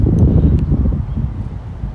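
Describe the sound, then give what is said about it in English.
Wind on a windy day outdoors at the Botanical Gardens in Memphis, buffeting the microphone as a steady low rumble with faint rustling. “It's a very beautiful day, a little windy.”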